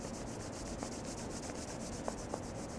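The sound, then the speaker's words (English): Palms of the hands rub together in a soft, steady, continuous brushing hiss that stays faint and even throughout. “Now to conclude, bring the hands together and just rub the palms a little bit.”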